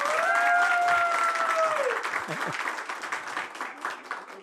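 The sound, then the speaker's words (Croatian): A big round of applause rises from a show's audience, a dense, continuous wash of clapping that holds steady throughout and eases slightly toward the end. “Dajte jedan veliki aplauz za emisiju večeras.”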